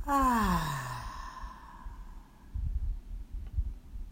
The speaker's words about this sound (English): And our final breath in and out.